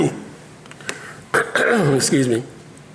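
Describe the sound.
Throat clearing from a speaker in the middle of a talk on spiritual speaking gifts: a short harsh rasping burst followed by a longer rough, gravelly clearing, preceded by a few faint clicks.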